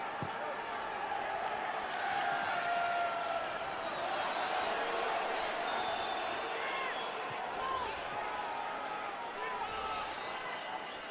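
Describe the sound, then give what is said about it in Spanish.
Tigres football supporters cheering and chanting in the stadium late in a match against New York City, a dense, steady roar of crowd noise that runs throughout under a commentator's voice. “Y la porra de Tigres empezando a animar a los suyos.”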